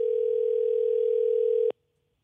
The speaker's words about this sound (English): Ashley and I picked up the phone one more time to call her mom.